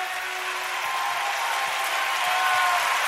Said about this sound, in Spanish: que crea que esto es verdad, levante su mejor aplauso.